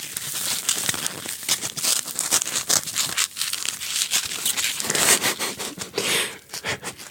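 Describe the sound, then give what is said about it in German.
Styrofoam packaging around a book is handled and pulled about, giving an irregular, continuous crinkling, crackling and scraping rustle with many small bursts and brief dips, moderately loud and with no talk. “Ich hatte mir ein Buch bestellt. Das war eingepackt in Styropor.”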